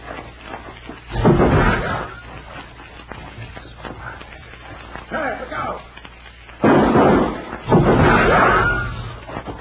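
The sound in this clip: Gunshots in an old radio drama as a six-shot gun is emptied: a few loud, sharp bangs spaced apart, with a muffled, low-fidelity tone.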